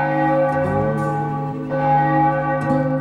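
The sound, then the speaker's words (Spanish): A church bell rings the hour over a silent village street, its sustained metallic tones layering with overlapping hum and a few fresh strikes, loud and alone without talk. “La campana de la iglesia marca la hora señalada.”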